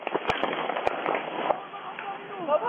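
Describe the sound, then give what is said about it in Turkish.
Gunshots ring out in an armed fight between two families in Derik, Mardin, caught on a security camera: a few sharp, cracking reports at irregular intervals over excited shouting voices. “Bazıları yumruk yumruğa kavga ederken bazıları da silahını çekti, peş peşe tetiğe bastı.”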